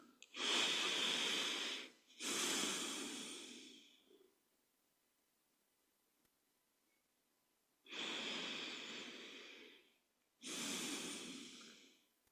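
Deep breaths during a guided meditation: four long, airy breath sounds in two pairs, with a quiet pause of a few seconds between the pairs.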